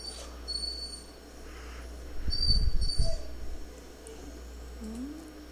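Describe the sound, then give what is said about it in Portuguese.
A dog barks, a short cluster of a few muffled barks midway, then brief whining sounds over a low steady hum. “Vocês estão ouvindo a Leca latir, claro.”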